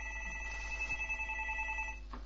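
A telephone rings faintly, a steady electronic tone built of several held pitches sustained for roughly one and a half seconds over a low constant hum, then cut off, followed by a brief soft knock.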